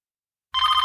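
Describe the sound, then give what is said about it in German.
A telephone bell starts ringing abruptly after half a second of silence, a bright, steady and fairly loud ring that continues unbroken to the end. “Das Telefon klingelte wieder.”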